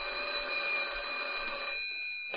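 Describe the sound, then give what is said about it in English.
A telephone rings with an incoming call, an even electronic trill held for nearly two seconds before it stops. A short quiet follows, then a brief click at the very end. “Then one night, Jack Swayze called me on the phone.”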